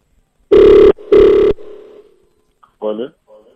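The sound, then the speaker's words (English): Telephone ringing as a call is placed: two steady buzzing rings in quick succession, the second trailing off into a fading tail, followed by a brief voice. “All right, it's ringing.”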